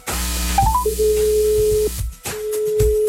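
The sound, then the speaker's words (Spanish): Telephone call being dialed by a radio station to a listener: a few short beeps stepping upward in pitch, then a long steady tone, a brief pause, and the same tone again. “para Erika, aquí marcando todo el tiempo”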